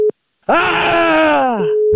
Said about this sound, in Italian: Dopo questa chiusura telefonica